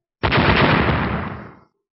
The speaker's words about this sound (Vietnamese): Một tiếng nổ vang trời